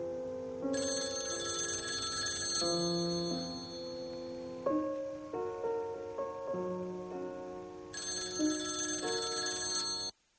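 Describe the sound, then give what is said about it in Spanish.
A telephone rings unanswered with a sustained electronic ringing that shifts between tonal notes for about ten seconds and then cuts off abruptly. “Está en la cama. No se levanta. Ni siquiera coge el teléfono.”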